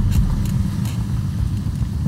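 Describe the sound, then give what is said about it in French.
A car passes with a steady, low engine rumble that stays even and moderately loud throughout, with no voices. “There's a car.”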